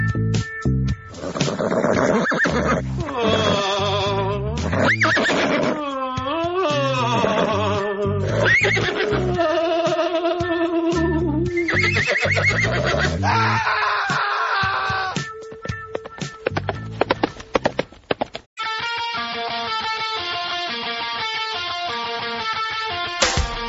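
A horse whinnies and neighs in a played recording: several loud cries with sweeping, wavering pitch, followed by steadier tonal sounds toward the end.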